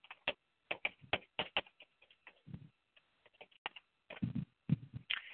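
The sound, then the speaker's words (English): Typing on a keyboard: quick, uneven bursts of crisp key clicks with short pauses, some heavier keystrokes toward the end, heard alone and fairly faint. “And actually, I'll tell you what I'm going to do. I'm going to type it in.”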